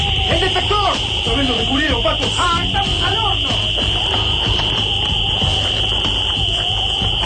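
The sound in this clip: An alarm rings as a continuous, piercing high tone through a dramatized scene in a city square under attack, holding steady beneath voices.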